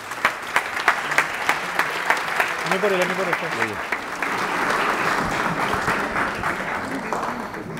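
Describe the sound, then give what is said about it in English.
Audience applause welcomes a rabbi to the stage. A few evenly spaced claps open, then swell into steady, dense clapping. A voice is briefly heard above it. “Ladies and gentlemen, please put your hands together and join me in warmly welcoming Rabbi Y.Y.”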